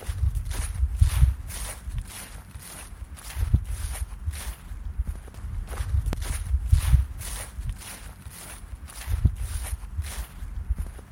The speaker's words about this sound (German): Heute nehmen wir euch mit auf einen kleinen Spaziergang in den Fahrenwalder Park.